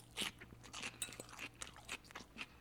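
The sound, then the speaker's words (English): Crunchy chewing of salad while eating: sharp, crisp bites and crackles repeat at irregular intervals over a low steady hum, fairly quiet, with no talk. “I just finished that delicious salad”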